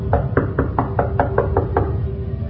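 Knocking on a door: a quick, even series of firm raps lasting about two seconds over a low background hum.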